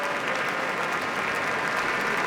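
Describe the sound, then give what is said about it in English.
Standing ovation for the Boston Symphony Orchestra at the close of a concert: thick, continuous applause from a large audience, a steady roar of countless hands clapping at an even, full level with no letup. “All the musicians of the Boston Symphony now standing as Andres Nelsons and Erin Morley are holding hands, bowing to the audience. They themselves are also on their feet for a standing ovation.”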